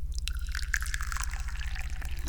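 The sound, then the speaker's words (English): Tea poured into a cup makes a steady, unbroken splashing trickle that lasts about two seconds, with a constant low electrical hum underneath. “First, I pour it in the cup.”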